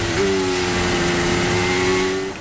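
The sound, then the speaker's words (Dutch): Formula One car engine heard onboard in fifth gear while warming medium tyres at the Marina Bay Street Circuit: a steady, loud, high-pitched drone held at constant revs for the whole stretch, with no voices. “Onboordgeluiden zijn er op dit moment van de auto van Lewis Hamilton. Vijfde versnelling, de boel opwarmen op die mediumband.”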